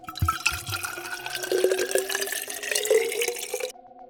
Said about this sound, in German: Er grub eine Weinflasche aus dem Eis, öffnete sie, goss die Blechbecher voll